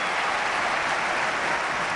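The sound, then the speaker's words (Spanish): Mestalla stadium crowd applauding its football team just after conceding a goal to Real Sociedad, a thick, unbroken wash of clapping from a large crowd. “Ahora reacciona Mestalla y aplaude al equipo.”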